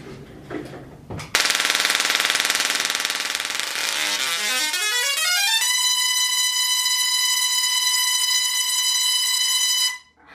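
A Tesla coil with a lamp on plays a single tone, its output interrupted at audio frequency. A harsh buzz bursts in loudly, rises in pitch into a steady, bright harmonic tone, then cuts off abruptly.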